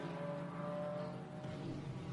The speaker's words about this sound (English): That number 23 Toyota Gazoo racing the black car with the multicoloured stripes on.